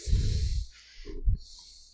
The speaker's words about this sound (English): I'm going to breathe in the mic.